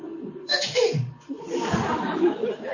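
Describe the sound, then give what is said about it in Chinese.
A sneeze mixed with chuckling and low voices, a sharp noisy burst that stands out against the brief laughter around it. “你看一个喷嚏被他打的呢”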